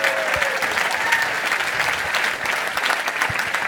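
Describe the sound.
A church audience claps, answering a call to praise, with a thick, sustained burst of many hands that stays loud and even throughout.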